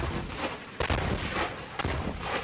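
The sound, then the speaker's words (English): Artillery fire from Israeli guns pounding Gaza, with two sharp, heavy blasts standing out above a continuous, dense rumbling roar. “Israeli artillery and warplanes are pounding Gaza in a bid to destroy a vast network of Hamas tunnels.”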